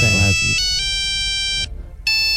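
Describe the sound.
Electronic ringtone melody from an old Siemens mobile phone: bright, sustained synthetic notes that step between pitches, drop out briefly, then resume, with a short voice at the start.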